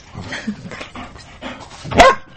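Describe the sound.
A trained dog barks on command, with soft panting and whimpering sounds building to a single sharp, loud bark near the end.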